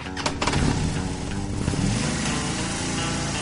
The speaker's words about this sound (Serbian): kad ja upalim motor, formira se zvuk motora